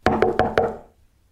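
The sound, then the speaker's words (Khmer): Four quick knocks on the front door of a house, evenly spaced and fairly loud, each with a short resonant ring that fades out alone afterward. “ក៏លឺទ្វារនៅមុខផ្ទះ”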